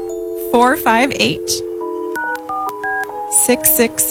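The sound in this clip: Touch-tone telephone dialing: a quick series of short, steady beeps at differing pitches as a number is keyed in. People talk before and after the tones.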